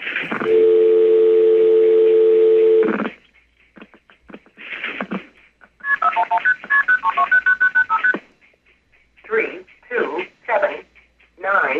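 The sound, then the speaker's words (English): A telephone goes off hook on a test stand, with a loud steady dial tone for about three seconds, then brief dialing bursts and a rapid string of stepped, pitched tones, followed by several separate tone bursts. “And so let's go off hook and dial the number. This is right on the test stand.”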